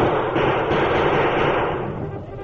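Dense, continuous roar of massed gunfire in a radio drama battle between settlers and attacking Indians, a loud, unbroken din that eases toward the end.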